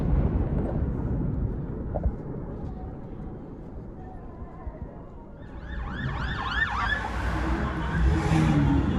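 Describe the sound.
An ambulance siren wails in repeated rising-and-falling sweeps, emerging in the latter part over a low rumbling background after several seconds of dull noise.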